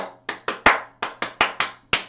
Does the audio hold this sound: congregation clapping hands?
yes